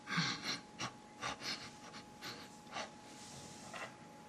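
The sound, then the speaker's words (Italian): A person demonstrates a rhythmic breathing pattern in a breathing exercise, producing many short, faint, airy breaths and puffs in a pulsing sequence with brief gaps between them, without speech. “Immaginiamo che con la nostra respirazione ricalchiamo questa forma. Avremo una respirazione che fa...”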